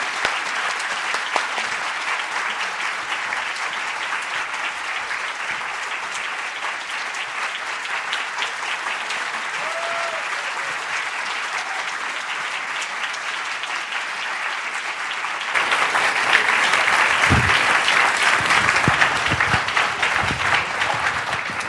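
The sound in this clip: Audience applause welcoming speakers to an evening event at the Free Library: sustained, dense clapping for about twenty seconds that swells louder toward the end.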